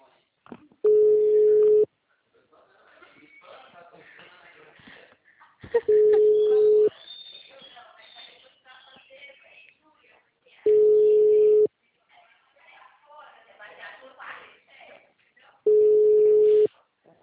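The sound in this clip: A telephone line rings back while a call is placed, giving four long, steady tone pulses spaced about five seconds apart, with people talking in the gaps between them.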